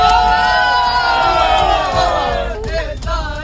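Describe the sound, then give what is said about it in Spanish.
Crowds of young Catholic pilgrims on their way to Madrid to meet the Pope sing and cheer together, a steady, loud mass of voices with a few whoops near the end. “Este es el sonido de algunos de los miles de jóvenes que están deseando llegar a Madrid para este encuentro con el Santo Padre.”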